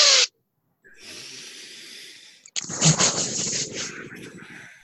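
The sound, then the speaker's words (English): Deep breathing in through mouth and nose during an arm-lifting exercise, a long airy inhale followed by a louder, rushing exhale with a hissing edge. “Take a breath in through your mouth and nose. Lift the arms way up. Okay, do it three times. Here we go. Breathe.”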